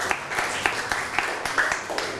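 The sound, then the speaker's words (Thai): Classmates applaud a student in a classroom, a short round of scattered, irregular claps with sharp individual hand strikes standing out from the patter. “เก่งมากครับนั่งลงปรบมือให้กับเพื่อนหน่อยครับ”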